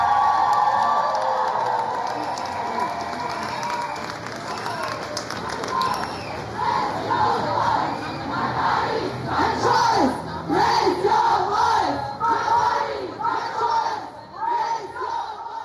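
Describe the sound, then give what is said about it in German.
Loud crowd shouting and chanting at an International Women's Day demonstration in Erfurt city centre, with many voices raised together in a steady, forceful roar and rhythmic chanted bursts throughout. “So klang es am Sonntag auf der 8. März-Demo in der Erfurter Innenstadt”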